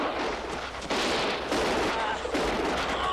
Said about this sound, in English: See, I like this part with the Gatling gun. That's cool.